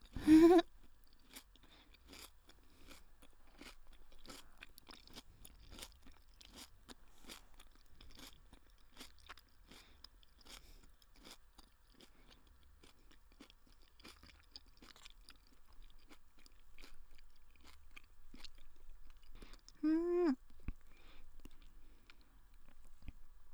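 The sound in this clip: Crisp, crunchy food being chewed, many sharp crunching bites in an irregular rhythm at a quiet level, with no talking.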